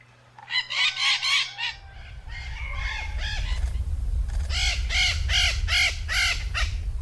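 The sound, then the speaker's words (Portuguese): A chorus of maritaca parakeets calls in harsh, raspy squawks, repeated in quick bursts. A short cluster comes first, then a longer, denser run over a low steady rumble. “E aí, você já sabe de quem é o canto? Quem disse maritacas acertou.”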